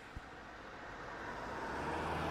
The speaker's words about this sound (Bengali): কিছুক্ষণ পর সব কাজ সেরে প্রিয়নাথও গাড়ি নিয়ে মন্দিরের উদ্দেশ্যে বেরিয়ে গেলেন।